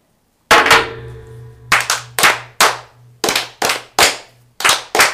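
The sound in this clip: Masonic brothers fire in unison at a table lodge toast, making many sharp, loud percussive bangs in a fairly steady rhythm. Each burst decays quickly before the next.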